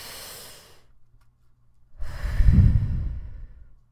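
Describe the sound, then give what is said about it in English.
Deep breathing: a faint breath, a short silence, then a long, loud rushing breath in and out with a sighing quality. “Take a deep breath right now. Are you going to do it? Ready?”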